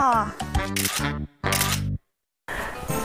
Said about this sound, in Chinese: 手机请拍照